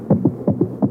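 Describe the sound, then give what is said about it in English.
A terrified heart races, its muffled, low heartbeat coming as quick paired thumps in a fast, urgent rhythm. “This is the sound of a normal heart. Now, listen to that same heart subjected to a night of total terror.”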